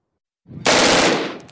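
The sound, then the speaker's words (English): A semi-automatic assault-style rifle fires at a gun range in a loud, dense burst. It begins abruptly after a brief silence and lasts about a second, easing slightly at the end. “it is still legal in most states for an 18 year old to buy a semi automatic weapon. CNN's Josh Campbell went to a gun range to show us just what such a weapon can do.”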